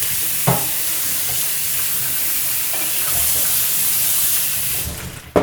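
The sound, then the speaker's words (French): Steady hissing and sizzling of a peanut paste sauce simmering uncovered as a litre of water goes in, with a continuous loud wash of bubbling noise and a few faint stirring knocks. “Maintenant, il va ajouter de l'eau. 1 litre d'eau.”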